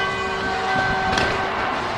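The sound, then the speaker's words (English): Victory bells ring after a college football win, giving sustained, overlapping ringing tones over a broad wash of background noise, with no talk. “defending the Big 12 championships, and right now the victory bells can ring”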